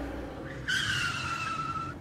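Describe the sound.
An auto-rickshaw's tires squeal as it skids to a stop. A low engine rumble is followed by a sudden, sharp, high squeal that holds for just over a second and then cuts off.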